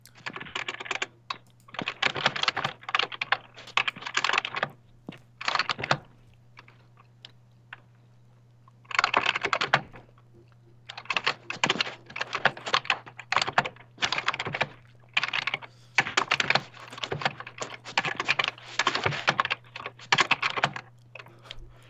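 Someone types an essay on a computer keyboard in rapid bursts of clicking keys, with a longer pause partway through, all over a steady low hum. No voices are heard.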